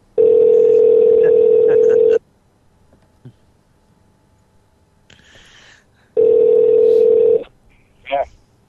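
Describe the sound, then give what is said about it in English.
Telephone call to a voicemail: a loud, steady electronic tone runs for about two seconds, then a quiet pause with faint clicks. The same tone returns briefly and is followed by a short warbling beep. “We wanted to hear your voicemail again.”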